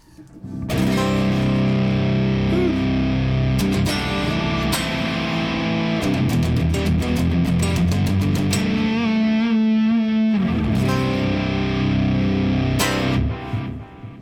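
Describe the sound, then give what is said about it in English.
Electric guitar runs through a Big Muff Pi fuzz pedal, no-op-amp version, into a Mesa Gargantuan cabinet, giving thick, heavily distorted, loud sustained chords with some choppy, rhythmic strummed passages before ringing out at the end. “before we blend, we're going to just utilize the Big Muff Pi, no op amp, into the Mesa Gargantuan, which sounds like this.”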